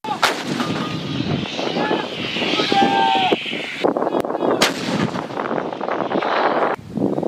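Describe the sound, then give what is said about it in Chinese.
Heavy artillery booms during a live-fire shooting exercise, with several sharp, loud blasts and their rumbling tails over steady wind noise and a few brief whistling tones. “在距离合成营不远的另一片阵地上，炮兵实弹射击考核也在紧张进行。”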